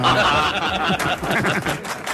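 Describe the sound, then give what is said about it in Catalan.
A prerecorded track of laughter and applause: crowd chuckles and snickers mix with clapping in a loud, continuous wash. “Però si no aplaudiu ningú, aquests riures i aplaudiments són pregravats.”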